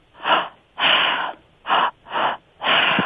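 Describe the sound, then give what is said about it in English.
Mouth breathing in a breathing exercise of a belly breath, a chest breath and an exhale. Five loud, airy breaths come in a steady rhythm, some short and some drawn out, with brief silences between them. “you breathe through your mouth and it's a belly breath, a chest breath, and an exhale.”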